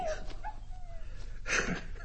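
A dog whimpers in thin, high whines that rise and trail off, followed by a brief, louder yelping burst near the end, all fairly faint over a low background hum.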